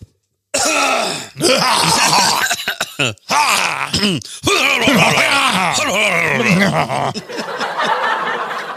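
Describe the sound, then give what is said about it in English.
A man clears his throat of phlegm at a restaurant table while ordering dinner, giving a string of rough, voiced rasps and groaning grunts with short pauses between bursts over several seconds. “Excuse me, I had a little phlegm.”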